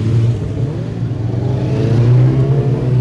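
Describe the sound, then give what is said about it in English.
A travelling marshal motorcycle sets off on the road at the start of a road race, its engine a loud, steady low drone with strong humming harmonics throughout and no voices. “The gates are now open. The number one travelling Marshall bike just sets off on the road, and all the riders in this race following on behind him.”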